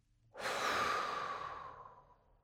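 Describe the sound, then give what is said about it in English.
A deep breath is forcefully blown out during a meditation breathing exercise: a single long, breathy whoosh that starts abruptly, holds strongly, then gradually fades away. “So once again, deep breath in, forcefully blowing out,”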